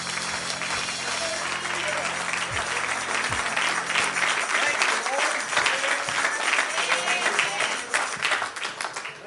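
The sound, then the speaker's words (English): An audience clapping hands in praise during a church service, producing a loud, continuous wash of applause that swells and holds for several seconds, with a low hum and voices underneath. “Let's give him a hand clap of praise tonight.”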